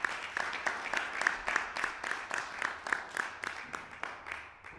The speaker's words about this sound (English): Let's put our hands together for our Father. We appreciate you. We can do better than that in Jesus' name.